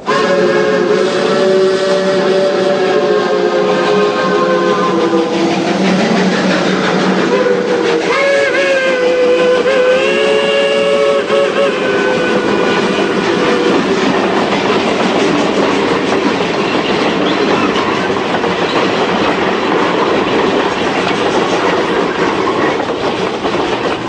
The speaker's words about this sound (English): After what seemed an eternity of silence between us, the train entered a tunnel.